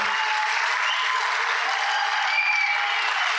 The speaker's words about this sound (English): you stand across the building and would you welcome Kay Lewis as she comes to the stage, please? Come on, let's give it up for Kay.